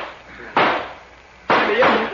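Two gunshots in a radio drama shootout, sudden loud blasts about a second apart, each decaying quickly into a quiet background.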